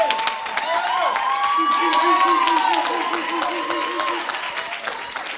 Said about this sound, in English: So would you put your hands together? Would you lift your voice, and would you welcome first Sam Shelf as he comes to bring the word?